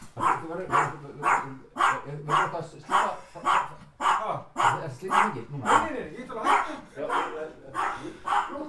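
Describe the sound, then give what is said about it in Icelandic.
A dog barks frantically in many sharp, evenly spaced barks that keep a quick, steady rhythm throughout. “Hundurinn alveg brjálaður”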